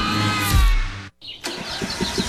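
Kubota lawnmower engine starting: a cranking whir that briefly cuts out, then catches into a steady running engine rumble.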